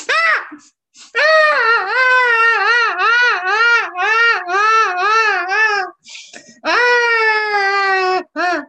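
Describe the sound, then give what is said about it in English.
A person wails and cries out loudly during an emotional release session. The long, wavering cries rise and fall in pitch, with a brief cry first and then a few drawn-out bursts separated by short gaps. “Now you can tell from the cries, the first noise was the anger.”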